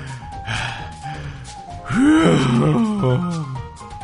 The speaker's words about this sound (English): He started moaning.